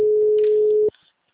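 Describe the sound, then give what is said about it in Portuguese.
A telephone busy signal heard when calling a client's engaged number: one steady, loud tone lasting just under a second that cuts off sharply into near silence. “Tô ligando pra um cliente, tá entrando ligação aqui. O número está ocupado.”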